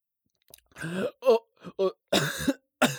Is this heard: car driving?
no